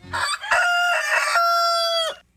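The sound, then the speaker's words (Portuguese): A grey rooster crows in a yard among hens: one long, loud, harmonic crow that holds steady for well over a second before cutting off, preceded by a brief shorter call. “Nosso galo cinza no terreiro cantando com as galinhas todo feliz”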